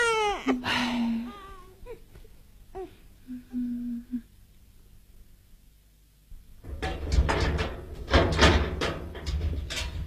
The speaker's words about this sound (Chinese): 哎，乖乖不哭啊！ 哦哦， 不哭， 别哭啊，乖， 不哭啊！